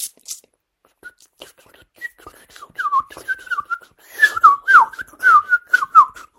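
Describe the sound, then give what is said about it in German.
A songbird's loud, shrill, flute-like whistling song in the countryside: a series of short fluting phrases that slide up and down in pitch, growing stronger and denser toward the end, with no voices. “laute, grelle Flötentöne. Über die, also außer vielleicht der Kleiber, wer ist so laut und massiv im Ohr? Ich kenne keinen hier bei mir in der Landschaft von den Singvögeln.”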